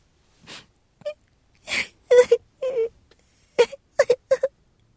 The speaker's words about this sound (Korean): 무릎 위에 손녀가 흐드득 흐느끼는 소리에